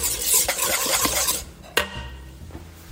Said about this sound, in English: the lemon juice, which is the acid that we've added, and the black pepper, which is going to provide heat to cut through all of it. Okay, so whisking.